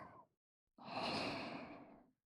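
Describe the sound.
Gentle blowing breaths given while holding someone close: a short soft puff, a pause, then a longer, steady airy blow that swells and slowly tapers off, breathy and quiet with no speech.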